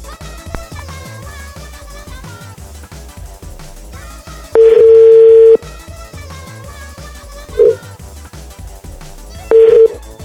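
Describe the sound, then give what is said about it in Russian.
Telephone call being dialed: a steady phone tone lasting about a second, a brief blip, then another short tone, over continuous background music with no talk. “Я и звоню сейчас. Я набрал.”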